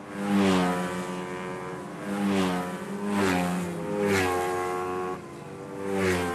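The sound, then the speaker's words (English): Go-karts racing in the finals of the 2012 Irish Go-Karting Championship: small racing cars about 6 by 4.5 feet, their engines giving a loud, buzzing whine that swells and fades as several karts pass in turn. “The finals of the 2012 Irish Go-Karting Championship. Go-karts. They're toy-sized racing cars, about 6 feet long by 4.5 feet wide,”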